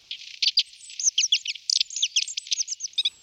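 Bum barrel bird, also called barrel tom, calling with many rapid, thin, high-pitched chirps and twitters in quick irregular bursts, heard alone.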